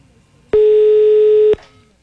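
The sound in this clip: A telephone call tone, heard as the call goes through before reaching voicemail: a single steady, mid-pitched electronic tone lasting about one second, loud and alone, then near quiet.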